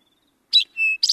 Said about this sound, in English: Drink your tea. There's a field sparrow calling in the back of that. You hear that little trill in the back?